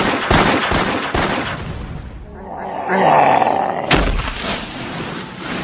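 Laser blaster gunfire sound effect: a few sharp, loud, crackling blasts, with a rougher roaring swell in the middle before another sharp blast, with no voices.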